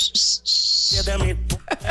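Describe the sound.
A person whistling, played back from a voice message: a high, steady whistled tone broken by one short gap, then lower, choppier sounds mixed with a few brief high chirps.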